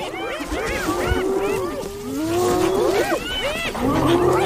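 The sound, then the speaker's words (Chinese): A lion growls in displeasure during a standoff over prey with spotted hyenas, giving many harsh, wavering calls that rise and fall in pitch, loud and continuous throughout. “哦，狮子很不高兴。”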